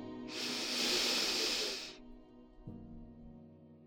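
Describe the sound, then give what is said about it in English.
A slow, deep breath drawn in to calm anxiety, heard as a steady, breathy hiss lasting about a second and a half, followed by quiet. “When I'm anxious, I can take a deep breath. Breathe in.”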